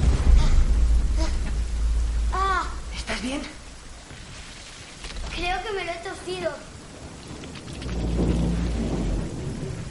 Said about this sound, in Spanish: Los dos chicos miran hacia el exterior donde sigue lloviendo con fuerza.